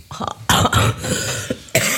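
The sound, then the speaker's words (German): Coughing from a person who still has a cough: a few sharp, harsh bursts, the loudest arriving in quick succession, with no talk in between. “Aber ich habe immer noch Husten.”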